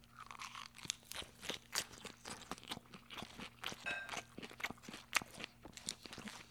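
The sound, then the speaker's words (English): Faint crunchy chewing of a salad with beans and chicken sausage cooked with Chardonnay, topped with jalapeno sauce, with many soft bites and crunches in an uneven rhythm and no talking. “We also got that jalapeno sauce as a topping. So without further ado, I'm going to dig in.”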